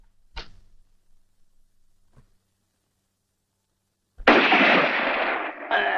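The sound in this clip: Gunshots ring out in a dramatic scene: a sharp crack, a faint pop after a pause, then a loud blast with a rough, sustained noisy tail, followed by another abrupt burst near the end.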